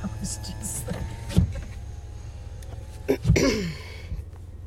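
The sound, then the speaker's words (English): A car's electric power window closes with a short motor whir and a few clicks and thumps near the end, over a steady low engine hum. “Putting my window up.”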